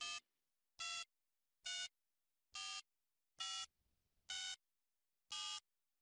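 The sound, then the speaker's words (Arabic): A telephone is dialled, giving seven short, bright electronic beeps at a fairly even pace with silent gaps between them, all quite faint. “خل أقوم اتصل فيها واتأكد من الشيء.”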